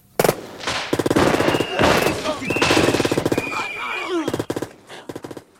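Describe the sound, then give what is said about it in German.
Gunfire from a shootout: rapid bursts of machine-gun fire in several long volleys, then a string of sharper separate shots near the end. “Dillinger und seine Leute hatten das Feuer eröffnet.”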